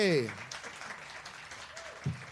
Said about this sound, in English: Give it up for Sonny. Give it up for Sonny.